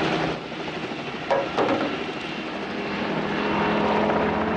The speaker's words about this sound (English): The pilot fights with the joystick as the chopper veers out of control.